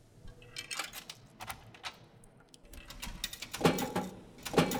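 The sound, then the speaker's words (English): A vending machine drops two cans of Coke with mechanical clatter, knocks and rattling thuds. The irregular bursts grow louder toward the end. “Two Cokes? Really? This machine always gives two Cokes.”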